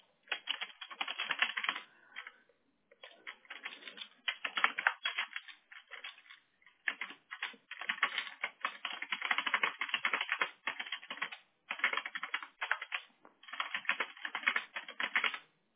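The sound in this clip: Typing a message on a computer keyboard: many rapid clicking keystrokes in irregular bursts with brief pauses between, faint and heard alone without talk.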